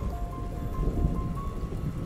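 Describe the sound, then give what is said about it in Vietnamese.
Steady rain falls during a thunderstorm, a dense continuous hiss with low rumbling underneath, and no voices. “Trời đang mưa, lại còn đang sấm chớp.”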